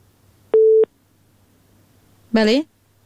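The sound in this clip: A single short, steady telephone beep sounds as a listener's call-in line disconnects, followed after a pause by a brief voiced sound.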